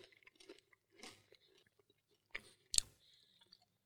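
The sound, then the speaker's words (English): Chewing on barrel-aged cacao nib brittle from Pappy & Company, with soft scattered mouth sounds and then two sharper, louder cracking bites near the end. “these are the Pappy & Company Barrel Aged Nib Brittle. We're going to do a bite of that”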